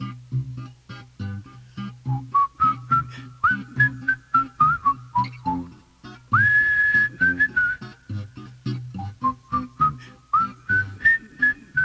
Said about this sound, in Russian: Ты что, мой друг, свистишь?